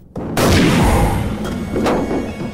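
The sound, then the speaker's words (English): Gunshots are fired through a car's passenger window in a film scene. A loud, sharp blast breaks into a heavy rumbling tail, followed by a couple more sharp reports. “Creeping up behind the vehicle, he fires through the passenger window and kills Lagonda. A bullet hits Freddy's shoulder, throwing him against the car.”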